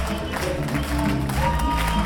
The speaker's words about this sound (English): Afterwards, the audience rises for a standing ovation.